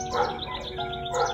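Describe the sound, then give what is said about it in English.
A bird tweets outdoors in the late afternoon, giving a few short, high chirps over a soft steady background. “I also hear a bird tweeting in the background, which you can probably hear as well.”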